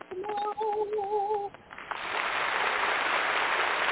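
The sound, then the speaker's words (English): Applause at a music-industry event greeting a marketing manager onto the stage. A few short melodic tones play first, then the clapping swells in and continues as a steady, dense wash to the end. “Let's give a round of applause to”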